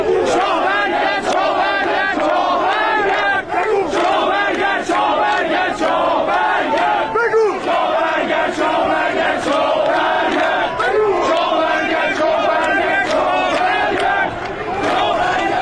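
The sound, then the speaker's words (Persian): Protesters chant slogans in unison outside the Goharshad Mosque in Mashhad. The crowd's voices stay loud and rhythmic without a break for the whole stretch. “آخه آدم میره جلوی مسجد گوهرشاد مشهد شعار میده رضا شاه روحت شاد.”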